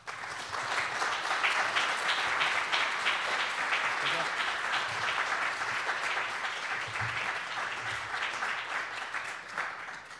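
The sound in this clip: An audience applauds to welcome a lecturer, with dense, even clapping that holds steady for about ten seconds at a fairly soft level.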